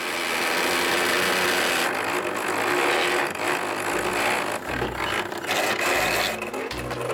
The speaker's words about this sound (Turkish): Döndürüyor. Gerçekten döndürüyor. Motor çalışıyor olabilir ama Ted dönme dolabı döndürebilmek için yapısında bazı değişiklikler yapacak.